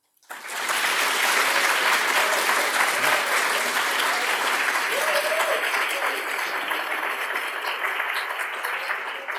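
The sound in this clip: Sustained audience applause with a few faint whoops rising above the dense, steady clapping, which starts abruptly and holds at an even loudness throughout.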